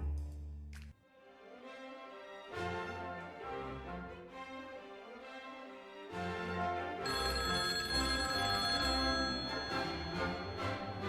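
A telephone rings at a home on a cold Friday morning, ringing on and on amid dense tonal sound that swells louder during the second half.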